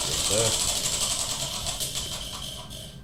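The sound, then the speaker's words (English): Rapid ratcheting clicks of a game wheel spinning in a steady mechanical chatter that runs through the whole moment. “And we're going to spin that wheel.”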